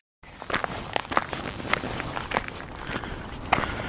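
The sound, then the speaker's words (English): Footsteps of someone walking beside a highway in the extreme heat of the meseta, with many uneven, crisp steps over a continuous background noise. “Beside the highway walking, again, this time in the extreme heat”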